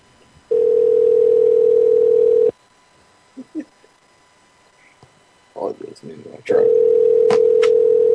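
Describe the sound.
Ringback tone of an outgoing telephone call: a steady low hum for about two seconds, then a pause filled with soft clicks and faint whispers before the tone sounds again.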